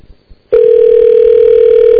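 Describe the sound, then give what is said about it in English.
A telephone ringback tone plays while a call waits to be answered. After a moment of near quiet, a loud, steady, single-pitched tone starts abruptly and holds unchanged to the end. “Waiting on Jay Maynard to pick up the phone.”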